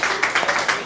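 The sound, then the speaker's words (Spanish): A brief burst of applause for schoolchildren at a school visit, with quick, rhythmic handclaps repeating in a short, steady patter. “Excelente, mira, vamos a dar un aplauso aquí.”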